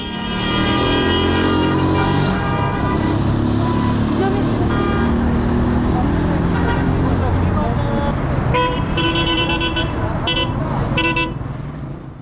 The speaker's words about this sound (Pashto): زه هم د کابل ښار د موټرونو یو تم ځای ته چې هلته خلکو په ساعتونو د موټر یا ملي بسونو انتظار کوه ورغلم